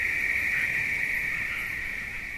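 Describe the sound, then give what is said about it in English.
Insects chorus in a state park with a steady, continuous high-pitched buzzing trill. It holds at an even loudness throughout, with no voices. “First, the insects come in, and the insects start about August, late August, and they run through December.”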